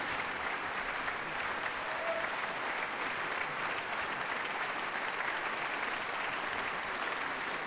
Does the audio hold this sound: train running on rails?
no